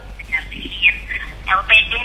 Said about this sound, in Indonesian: Kita angkat dulu penelpon kita.